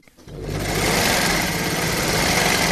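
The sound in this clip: A sewing machine in an alterations tailoring shop starts up and runs steadily, a loud, dense, rapid mechanical whirr and clatter with no talk over it.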